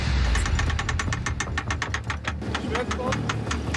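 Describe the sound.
A 250-horsepower rescue boat engine pushes against the hull of an 80-ton ship with a jammed centreboard, grounded in shallow water. It gives a loud, rhythmic, knocking chug with fast, regular pulses throughout.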